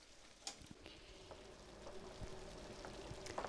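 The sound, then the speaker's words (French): Water poured into a pot for pasta gives a quiet, steady rushing hiss with small splashy ticks scattered through it, faint throughout. “on va mettre l'eau pour la pâte”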